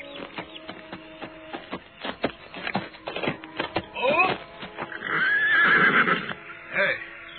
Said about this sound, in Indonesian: Oh, siapa orang yang berkuda menuju kemari itu